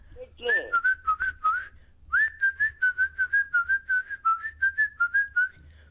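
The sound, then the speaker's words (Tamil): Human whistling in a sound-guessing game: a clear, fairly high tune of many short, bright notes in two phrases, a brief one and then a longer one, with no talk. “அது whistle சத்தம்.”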